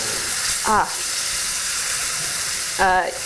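Chili oil sizzles in a pan with a steady, hissing crackle throughout, fairly faint, interrupted by two brief, louder bursts.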